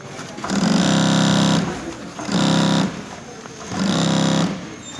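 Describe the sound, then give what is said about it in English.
Sewing machines run in a workshop in Denver, Colorado. A steady, loud mechanical whir plays in three separate runs, with a quieter hum between them. “This is the sound of sewing machines at the Mile High Workshop.”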